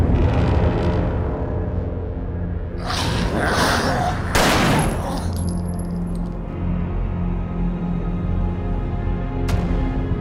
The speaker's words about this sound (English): Blasting zombies.